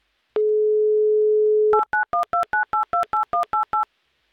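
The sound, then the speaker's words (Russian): A telephone number is dialed on a radio call-in game: a steady, unbroken dial tone sounds first, then cuts to a quick, regular run of short touch-tone keypad beeps at shifting pitches. “Ну, сначала соединение, конечно же. Все, писк был, значит, гудки тоже начинают бежать.”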